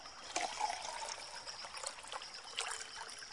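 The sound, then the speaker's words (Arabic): Lake water is poured out in a faint, thin trickle with light splashing, a few slightly stronger surges among the steady flow. “تفضل يا ليشع، مية من البحيرة. ليشع المية كويسة خالص.”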